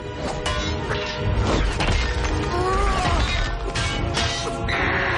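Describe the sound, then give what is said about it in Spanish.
Heavy mace blows swung at a dodging dwarf in a fantasy battle film fight. A loud, dense stretch of crashing impacts runs over a busy soundtrack. “El enano esquiva los golpes de maza de Azo.”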